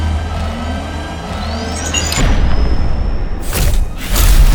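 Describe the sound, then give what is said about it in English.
An artillery strike fired from a ship explodes in a video game, a loud booming rumble that erupts partway through and is followed by a few further heavy blasts toward the end. “Calling in an artillery strike from the ship! Now!”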